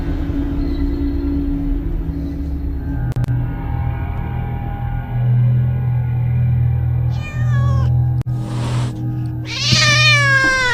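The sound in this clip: Cat meows sound a few times near the end, each a short rising-and-falling cry, heard in a house where no cat lives, over a steady low droning rumble that runs through the whole clip.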